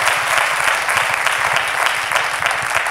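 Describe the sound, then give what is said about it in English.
An audience claps loudly and steadily for the whole stretch, a dense wash of many hands with no pauses. “Oh, if you're going to clap, do it well. That was, come on, that was like 50%.”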